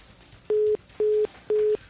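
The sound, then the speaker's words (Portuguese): Telephone busy tone sounds after a dropped call during a phone-in to a football discussion: three short, even beeps at a steady mid pitch with equal gaps, clear and alone. “Opa, a ligação caiu aí do Zé, a gente vai refazer a ligação.”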